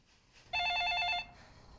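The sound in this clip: A telephone rings once: a bright, trilling electronic burst lasting under a second, loud against a quiet background before it cuts off.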